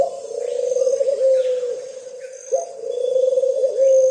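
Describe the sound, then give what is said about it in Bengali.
A dove, a tame bird, coos in two long, low, drawn-out calls separated by a brief pause, steady in pitch and moderately loud. “দূরে একটা ঘুঘু পাখি ডাকছিল, হঠাৎ লোকটা উৎকর্ণ হয়ে শব্দটা শোনে।”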